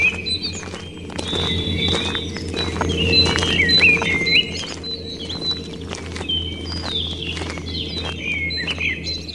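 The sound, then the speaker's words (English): Footsteps walking uphill toward a mausoleum, many regular crunching steps at a slow, even pace, with bright bird chirps and tweets scattered over them throughout. “Oh, my God. It takes so long to walk up here.”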